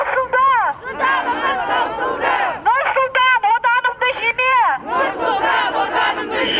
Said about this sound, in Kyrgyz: Алар колдорунда саясий ураандар жана чакырыктар жазылган кагаздарды көтөрүп, өлкөдө тең укуктуулук орношун талап кылып, кыйкырып турушту.